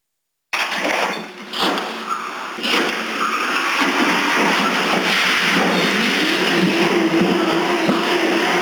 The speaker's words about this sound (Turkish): Antalya'da gaz pedalı takılan araç kontrolden çıktı. Ortalığı savaş alanına çevirdi.